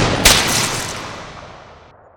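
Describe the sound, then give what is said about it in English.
A single loud gunshot cracks out, with a bright burst that slowly dies away in a long fading tail. “All right, so I'm gonna take a shot. I'm gonna miss.”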